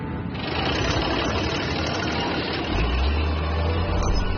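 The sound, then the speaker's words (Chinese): An excavator engine runs steadily while the machine crawls at about 3 km/h on dam-patrol work at a salt lake. It makes a dense, rattling mechanical drone, with a deeper low hum growing stronger partway through. “严鹏启动了他的挖掘机，以每小时3公里的速度开始了一天的寻坝作业。”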